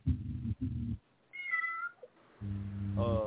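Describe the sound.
A cat meows a few times, with drawn-out, fairly loud cries.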